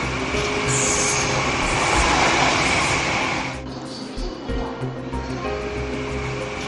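A passenger train bound for Nanjing runs along the rails with a steady, broad rumbling roar and a thin high wheel squeal early on. The sound eases noticeably quieter partway through.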